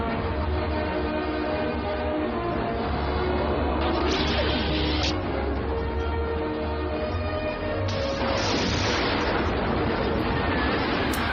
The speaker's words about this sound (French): Donc ça explose grosso modo dans tous les sens ah, pète